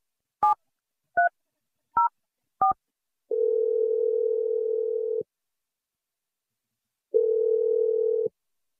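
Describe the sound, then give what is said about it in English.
Four short, high telephone keypad beeps are heard as a number is dialed, followed by two long, steady, lower ringing tones separated by a silent gap. “I'm about to dial her number. Okay. Hopefully she answers. Here we go.”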